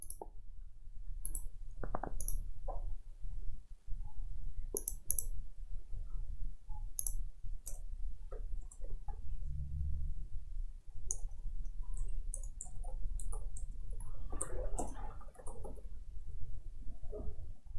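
Computer mouse clicks while selecting cells on an on-screen grid: many short, sharp clicks scattered irregularly over a low, steady background hum.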